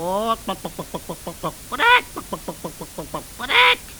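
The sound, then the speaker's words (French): A voice imitates a chick peeping: many short, quick chirps broken by three longer, louder calls, at moderate volume. “Chip, chip, chip, chip !» répond le poussin.”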